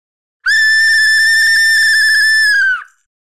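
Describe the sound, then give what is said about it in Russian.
A whistle blown hard gives one long, loud, shrill blast at a steady high pitch that holds for about two seconds, then cuts off. “Я изо всех сил, ну почти, дунул в свисток. И тот разразился противным громким звуком, от которого даже у меня зачесалось в ухе.”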